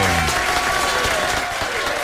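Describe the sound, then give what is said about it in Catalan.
Audience applause after a performance on a Catalan entertainment show: a dense, steady wash of many hands clapping at even loudness from start to finish. “Un aplaudiment, sí senyor.”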